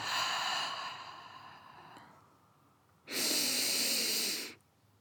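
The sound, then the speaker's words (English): Deep breathing for calming, in through the nose and out through the mouth: a long airy breath fades over about two seconds, then after a pause a louder, steady rush of breath lasts about one and a half seconds, with no talking. “5 deep breaths in your car. In through your nose, out through your mouth.”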